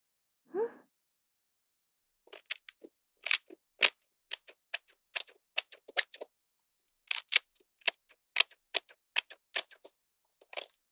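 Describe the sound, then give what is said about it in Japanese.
Scissors cut hair with crisp, quiet snips during a haircut, coming in many rhythmic clusters of quick sharp clicks separated by brief pauses, after a single soft sound at the start. “徐々にすっきりしていく頭、そしてリズムよく切っていくハサミの音に耳を澄ませて、”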